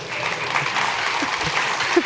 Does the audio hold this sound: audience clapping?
yes